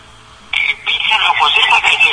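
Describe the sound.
Telephone ringing as a call comes in to a live talk show: an electronic warbling ring starts abruptly, breaks off for a moment, then rings on steadily over a faint low hum.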